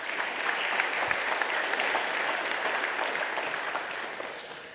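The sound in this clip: Audience applause welcomes a speaker coming up: dense, steady crowd clapping fills the whole stretch and eases slightly toward the end.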